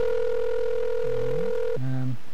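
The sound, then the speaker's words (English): Ringback tone of an outgoing telephone call: a steady electronic tone holds for under two seconds, then cuts off into a shorter, lower buzzy tone. “What I'm going to do while this phone rings, and I'll try this call again”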